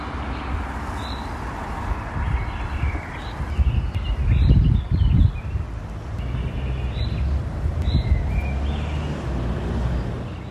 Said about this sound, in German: da war ein bisschen im Hintergrund zu hören eine Nachtigall, die meine Kollegin Natascha Freundl aufgenommen hat als Berlin-Sound.